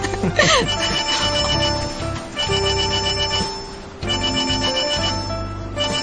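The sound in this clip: A phone rings with a bright, melodic electronic ringtone. The tune loops continuously and loudly, repeating its phrase a few times without pause.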